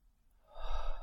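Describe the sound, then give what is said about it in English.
A single deep breath from a guided breathing exercise, rising from near silence into a loud, airy rush that holds steady to the end. “when you are complete with those three breaths, please begin to breathe normally in your throat space.”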